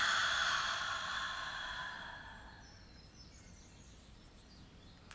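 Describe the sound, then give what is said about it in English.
A deep breath taken during a guided relaxation exercise: a soft, airy breathy rush that starts fairly loud and slowly fades away over about five seconds, heard alone. “Let's take a deep breath in and release it.”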